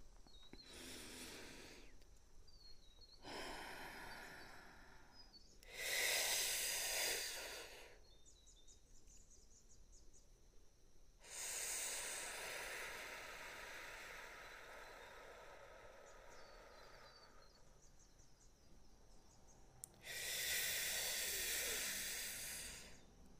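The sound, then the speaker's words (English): Deep breaths drawn in and slowly let out during a guided relaxation exercise: a few long, airy hissing breaths swell and fade, with a longer, louder exhale in the middle. No talking. “let's take a deep breath together and let's exhale all of that tension that we may have in our body right now”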